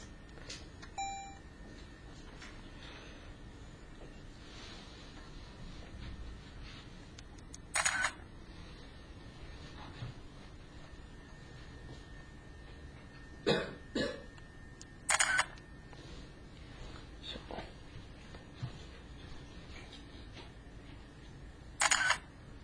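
Faint camera shutter clicks while photos are taken during a university class, a handful of short, crisp snaps spaced irregularly over a quiet background.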